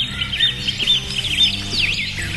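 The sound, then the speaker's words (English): Birdsong of high, warbling chirps and trills runs continuously at a steady, moderate loudness over a low background hum. “a new study shows that just 10 minutes of listening to birdsong can help you get rid of stress.”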